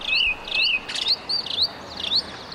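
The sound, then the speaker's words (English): Birds chirp in a quiet central city square in Cusco: many short, high, bright tweets come in quick bursts over a soft, steady background hush. “It's so quiet that you can even hear the birds chirping in Cusco's central square.”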